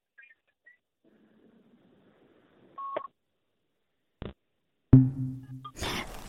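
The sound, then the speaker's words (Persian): A short electronic telephone beep sounds as a phone call cuts off, then two sharp clicks and a burst of line noise follow, with near silence around them. “تلفن آقای غزنفری قطع شد.”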